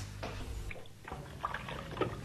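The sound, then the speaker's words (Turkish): Running water from a kitchen tap as someone washes their hands, a faint trickle broken by a few soft splashing bursts. “Peki peki, önce ellerimi yıkayayım.”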